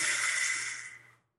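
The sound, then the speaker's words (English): A voice imitates a sports coach's heavy breathing: one long, breathy, hissing exhale held steady before it trails away into silence. “But he has this, like, heavy breathing to him, too. He's like,”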